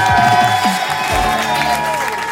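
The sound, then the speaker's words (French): Applause and cheering from an audience welcoming a veteran French singer onto a television stage: loud, continuous clapping mixed with crowd noise that stays strong and even from start to finish. “Merci de faire une tornade d'applaudissements pour l'immense Nicoletta.”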